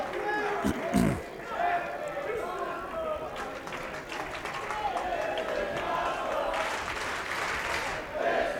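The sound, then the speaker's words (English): A wrestling crowd at a live match cheers and claps, making a steady roar of voices and applause with brief louder swells. A man speaks over the crowd noise. “This is awesome chant from the crowd.”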